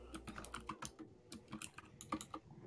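Typing on a computer keyboard: a quiet, rapid run of many light key clicks in an uneven rhythm.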